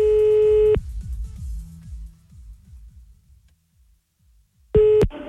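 Outgoing telephone ringing on a prank call placed to a woman in France. Two steady, mid-pitched ring tones are separated by a long gap filled with faint low sounds, and the second tone is cut short abruptly.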